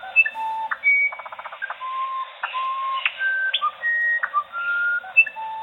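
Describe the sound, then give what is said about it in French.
A musician wren sings a string of pure, clear whistled notes at shifting pitches, some held steady and some sliding. A quick rattling series of notes comes early, and the whole song sounds strikingly like synthesized music. “Ça, c'est le troglodyte musicien. C'est ça. Et quand je fais écouter ce chant, les gens sont persuadés que c'est un morceau de musique synthétique, quoi. Ouais. Or, c'est un oiseau,”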